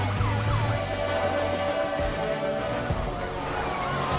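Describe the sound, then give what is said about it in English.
Sirens of fire trucks and police motorcycles racing in a convoy through a city at night: several wailing tones sweep up and down in pitch over a steady engine rumble, sustained and moderately loud. “Fire trucks join the convoy, and police motorcycles speed through the nighttime city.”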